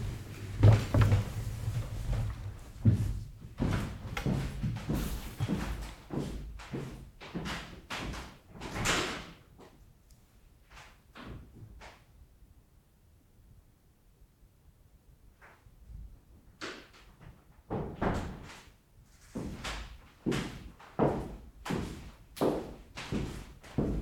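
A door is opened and closed again and again, giving many short thuds and knocks in irregular clusters. A quieter stretch falls in the middle before the impacts pick up again, with no talk.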